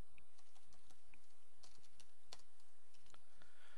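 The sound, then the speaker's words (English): Typing on a computer keyboard, many quick, light key clicks in an uneven rhythm, faint and steady throughout with no talk. “Oops, let me just type that correctly.”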